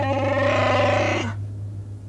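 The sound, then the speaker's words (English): Small huddled creatures grunt and bleat like frightened pigs in one sustained, strained, nasal burst of about a second, cutting off abruptly, over a steady low hum. “And as he growled angrily, the huddled Ugnaughts shivered and grunted like a pack of frightened pigs.”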